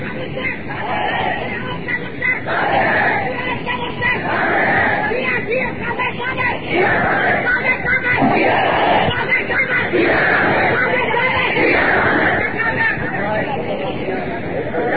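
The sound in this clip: A crowd chants slogans at a large religious gathering, many voices shouting together in a loud, unbroken roar that rises and falls in waves throughout, with some individual shouts rising above the mass.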